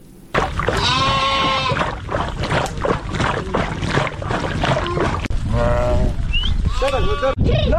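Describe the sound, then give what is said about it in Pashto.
A flock of sheep and goats belonging to nomadic herders in Afghanistan bleats. Several loud, wavering calls, including one short high cry, rise over a busy, constant background of movement. “د راپور د کوچیانو د رمو په غږ پیلېږي.”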